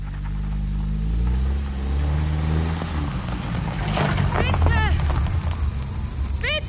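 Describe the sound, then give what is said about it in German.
Car engine on a roadside just above a bridge as the driver brakes and then backs up: a low, steady rumble with a tone that drops over the first seconds, followed by a few short, high squealing chirps. “Ich trat auf die Bremse. Dann setzte ich zurück.”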